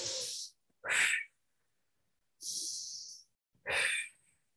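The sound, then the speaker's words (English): Four loud, airy breaths in a conscious, continuous pattern, drawn in through the nose and let out through the mouth. The breaths are separated by short gaps, with no talking. “I would use what we call the halo active breath. And so that's in through your nose and out through your mouth.”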